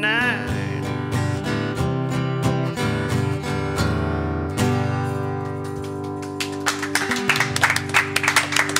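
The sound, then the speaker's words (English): Audience applause breaks out as a live song ends. Sustained tonal music plays for about six seconds, then scattered clapping starts and grows livelier toward the end. “It's the most applause I've got all week.”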